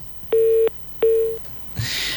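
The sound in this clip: A busy tone on a telephone line after a call is cut off: two steady, low beeps of equal pitch with a short gap between them, followed by a burst of hiss.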